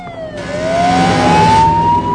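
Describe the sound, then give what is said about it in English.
A fire engine siren wails as the truck speeds past a restaurant. The steady siren tone climbs slowly over loud engine and road noise, with no talk. “A fire engine speeds past the restaurant.”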